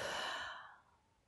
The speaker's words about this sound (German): Halte kurz und dann atme tief und fest wieder aus.